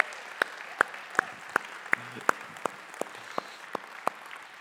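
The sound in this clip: Rhythmic, evenly spaced claps from the audience applauding the moms at a Mother's Day morning service: about a dozen sharp, bright claps in a steady beat, with no talking.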